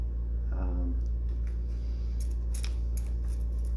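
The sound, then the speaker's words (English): A Thoth tarot deck is shuffled by hand, giving a few crisp, papery snaps and flicks that rise over a steady low background hum, quiet and brief. “And I'm going to shuffle the Thoth deck too before I begin”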